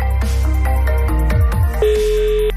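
A mobile phone rings with an unanswered call, its ringtone a loud melodic run of bright tones stepping downward, then a single held tone near the end.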